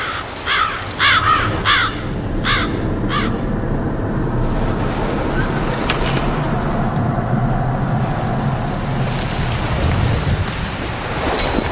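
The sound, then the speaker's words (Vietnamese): More than a dozen black crows circle overhead, letting out a few harsh, repeated caws in the opening seconds. A steady wash of rain and low rumbling continues underneath and carries on alone once the calls stop. “trên đầu bỗng vang lên mấy tiếng quạ quạ. Có hơn chục con quạ đen đang lượn vòng mãi không chịu bay”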